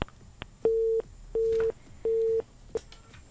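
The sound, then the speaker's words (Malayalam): Telephone busy tone after a phone call is cut off: three long, steady mid-pitched beeps at even intervals, followed by a short final blip, with no voices. “അപ്പൊ call കട്ടായിരിക്കുകയാണ്.”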